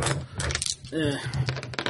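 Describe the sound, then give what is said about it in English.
Dice rattle and clatter as players roll them during a tabletop game: a quick run of sharp clicks and knocks mixed with people talking. “So you guys roll the remaining dice.”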